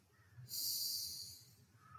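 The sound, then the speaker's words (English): A single deep inhale during a guided visualization exercise: a soft, breathy rush of air about a second long, faint and alone. “Take a deep breath in”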